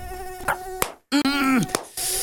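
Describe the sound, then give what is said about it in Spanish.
Aedes aegypti mosquito buzzing, a thin, whining drone with a strong harmonic stack, heard in a few bursts broken by a brief silence. No voices are present. “El mosquito Aedes aegypti transmite el dengue, el chikungunya y el zika.”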